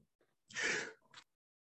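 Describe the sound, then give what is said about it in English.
A partly muted sneeze: one muffled, breathy burst followed by a brief, softer trailing puff. It is faint, with no talk. “That was a sneeze and a mute, hopefully. It was a mute.”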